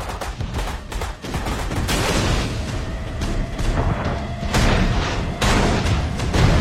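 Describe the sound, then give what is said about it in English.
Naval cannon fire from the destroyer Greyhound strikes a U-boat, followed by an explosion. Many loud, sharp booms and gunfire bursts ride over a continuous heavy roar, with no talking. “One of Greyhound's cannons blasts the U-boat. Black smoke follows an explosion as the submarine retreats underwater.”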